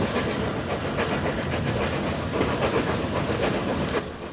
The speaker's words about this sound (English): a small group of people has gathered to watch the train pass from behind a 5-bar gate.